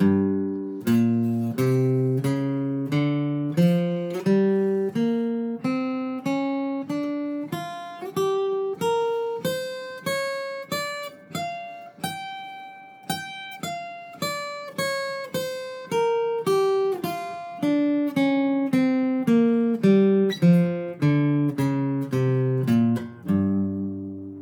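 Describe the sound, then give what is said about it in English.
Guitar playing the G blues scale from fret 3 up to fret 15 and back down, plucked one note at a time in a steady, even rhythm, rising in pitch and then falling, with no voices. “Way up and down from fret 3 right up to fret 15 using the G blues scale.”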